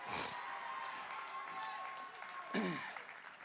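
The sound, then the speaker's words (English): An audience applauds to welcome guests onto a stage, with a soft, steady patter of clapping running beneath people talking. “So will you guys put your hands together every campus and welcome my friends out.”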